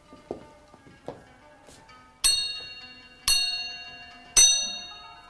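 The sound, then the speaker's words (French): A hand bell rung to summon a steward: three clear, bright strikes at a steady pace, each ringing out and slowly decaying, preceded by two soft taps. “Attendez, attendez, je vais sonner mon intendant.”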